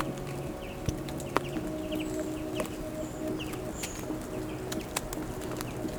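Whistling birds chirp in scattered short, high calls over a steady low background drone, with a few sharp clicks breaking through now and then.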